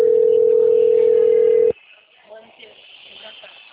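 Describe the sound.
A single telephone ringing tone plays while a call is placed. It is a loud, steady, mid-pitched tone lasting under two seconds that cuts off abruptly, followed by faint low background noise.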